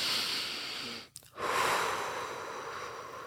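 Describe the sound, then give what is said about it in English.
A deep breath, drawn as a long airy rush of air that breaks off briefly partway through, then resumes as a steady, slightly fading breath, with no talking. “Like, literally take a deep breath right now.”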